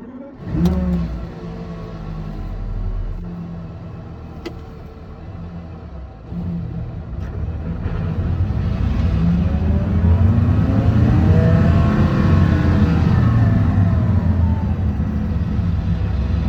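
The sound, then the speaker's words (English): A Porsche Carrera GT engine revs with a gravelly, industrial rumble, first a steady mid-pitched drone, then swelling louder as the revs climb in several rising sweeps toward the end. “the inside of a Carrera GT is a little bit like gravelly and dump trucky and like industrial process sounding”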